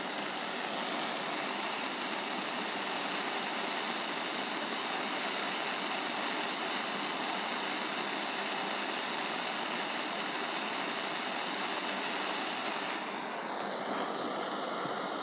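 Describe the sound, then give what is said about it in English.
A butane torch flame roars as a steady, dense hissing rush, unchanged in level for the whole stretch, with no other sounds standing out. “Let me torch this up. And I need a lighter. I got my torch.”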